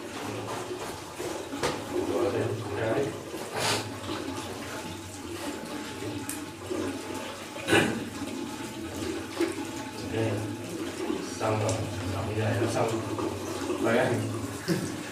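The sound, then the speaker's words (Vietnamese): Water runs from a tap while feet are washed during wudu ablution, a continuous splashing flow with scattered louder splashes, as people talk over it. “Mình rửa sau tới cái mắt cá chân thì mình phải chà hết, tức là bàn chân mình phải cho nước nó thấm hết, không được dơ.”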